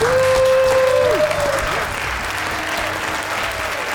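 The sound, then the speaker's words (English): Applause from an audience at a boxing awards ceremony, steady dense clapping that stays loud throughout, with a sustained whistle-like tone and a few voices mixed in near the start. “We got some clapping.”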